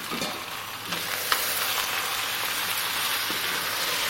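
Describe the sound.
Steady, dense sizzling of rinsed, brine-preserved lemons browning in a cast-iron pot with other ingredients, a continuous bright frying hiss with one brief sharp click partway through.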